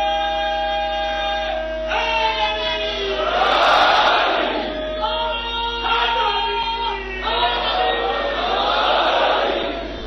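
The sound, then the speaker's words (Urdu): Mourners at a Shia mourning gathering chant a slogan in call and response. A single voice leads with long drawn-out calls, and the crowd answers in loud roaring bursts, twice over. “اب نعرہ لگاؤ تو میں دوسری طرف آؤں.”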